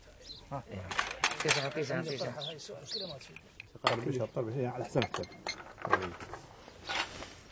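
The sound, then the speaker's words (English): Clinking of bowls and glasses as dry biscuits and glasses of sweet tea are laid out in the shade on a farm; light, scattered clinks sit beneath people talking. “lays out bowls of dry biscuits and glasses of sweet tea, as he did 10 years ago.”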